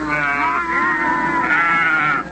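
A herd of goats bleats loudly in a few long, wavering, nasal calls that overlap and run almost continuously, with no talk.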